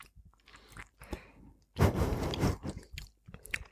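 Chewing of red bean mochi, heard as moist, crunchy mouth sounds in short irregular bursts with a louder, denser stretch in the middle.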